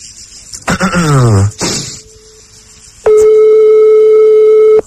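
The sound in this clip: A telephone ringing tone sounds on the line during a call, a faint steady tone first, then a loud, even, unbroken tone holding for nearly two seconds after a brief burst of noise.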